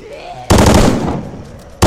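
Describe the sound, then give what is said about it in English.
Burst-fire gunshots from a weapon in a video game: a loud, dense rattle of rapid shots runs for over a second, then a second burst cuts in abruptly. “Burst fire. Oh, it's got burst fire.”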